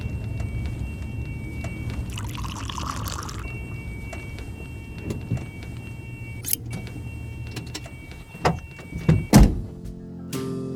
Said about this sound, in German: Er stieg ein, trat ein paar Mal aufs Gaspedal und drehte den Schlüssel. Der Motor sprang an. Er ließ den Fuß auf dem Gas.